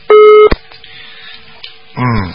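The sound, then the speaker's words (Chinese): A telephone busy tone after a dropped call: one loud, steady, buzzy tone lasting about half a second, then quiet line hiss and a brief voice at the end. “哎呀，这么可惜，电话又跳掉。”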